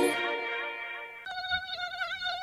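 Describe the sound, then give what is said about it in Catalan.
Tiger mosquito buzzing: a thin, high, continuous whine with a slightly wavering pitch that shifts in tone partway through and carries on alone to the end. “Compte, el mosquit tigre ja arriba.”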